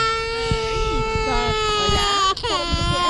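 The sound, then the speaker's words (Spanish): A two-year-old boy cries in his mother's arms while the family sleeps outdoors on the ground, a sustained, wavering wail that continues beneath a narrating voice. “El pequeño llora”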